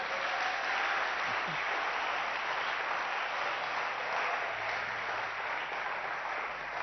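A worship audience claps in acclaim of the Holy Spirit, producing a thick, steady wash of applause that stays even and unbroken for the full seven seconds.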